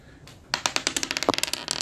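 Dice rolled during a board game make a rapid clatter of many sharp, bright clicks that start abruptly after a short quiet lead-in and keep rattling to the end.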